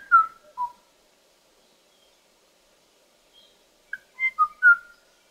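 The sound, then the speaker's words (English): Clear whistled notes from the last male Kauai o'o, a duetting Hawaiian forest bird, sung alone: a pair of notes, a long silent gap where the female's reply would fall, then a quick cluster of several more high, pure tones. “And you hear those spaces in between the notes, and that's where the female would have completed the duet. So o'os were a duetting species,”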